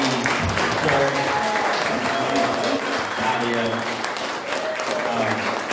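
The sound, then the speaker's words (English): Audience applauding at a talk before a question session: steady, loud clapping with cheers and scattered voices running through it. “I need y'all to please make some noise, get some gratitude to”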